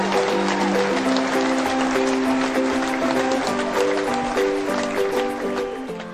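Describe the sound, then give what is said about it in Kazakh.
Applause for a radio quiz winner: a dense, steady patter of clapping holds at an even level throughout, mixed with sustained tonal music. “біз сізді құттықтаймыз мына қошемет сізге”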